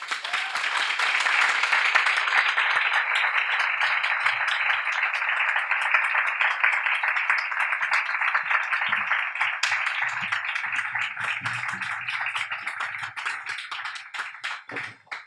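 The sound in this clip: Audience applause welcomes guests at a Miami talk event, a brisk, dense patter of many hands clapping that holds steady, then thins and tapers off near the end.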